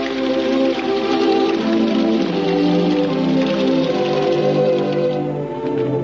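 Rain falls against the wet window glass of a house, a dense, steady hiss that stays loud and even throughout with no distinct single drops standing out.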